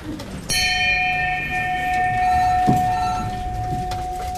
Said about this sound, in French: quand vous faites une affaire, qu'est-ce que vous faites ? On sonne la cloche.